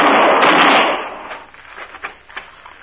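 Gunshots in a radio western quick-draw duel: a loud burst of noise that decays over about a second, followed by a few faint, sharp cracks.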